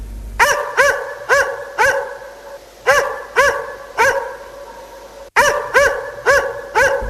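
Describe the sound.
A lone dog barks in sharp, loud, repeated barks. The barks come in quick runs broken by short pauses, with no other sounds.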